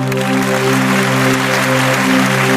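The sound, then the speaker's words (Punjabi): Audience clapping at a live spoken stage event, dense and continuous for the whole stretch, layered over a sustained, steady harmonic drone. “ਇੱਕ ਵਾਰੀ ਸੱਚਾ ਪਿਆਰ ਕਰਨ ਵਾਲੀਆਂ ਰੂਹਾਂ ਦੇ ਨਾਂ ਤੇ ਤਾੜੀ ਮਾਰ ਦਿਓ ਜਰਾ।”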